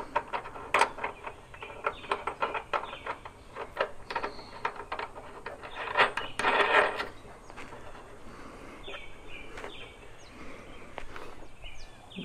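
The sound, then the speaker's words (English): An adjustable socket wrench tightening a bolt gives quiet, irregular ratcheting clicks, a scattered run of sharp ticks with a denser burst partway through. “I got my adjustable socket set here. One size fits all. Oh, that tightens up nice.”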